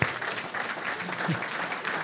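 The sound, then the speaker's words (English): Clapping from a church audience honoring a volunteer: a steady, even wash of applause with no clear breaks, moderately loud throughout. “So Steve, we're actually clapping for you right there, man.”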